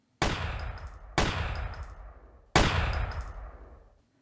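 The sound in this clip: Three loud machine gun shots ring out, each a sharp crack followed by a long, slowly fading tail, with the third shot coming after a longer gap than the second and no talk.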